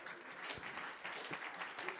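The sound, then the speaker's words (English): A church audience gives the Lord a round of applause. The clapping is soft and continuous, with a few sharper, louder claps standing out. “In the name of Jesus, would you give the Lord a big round of applause one more time?”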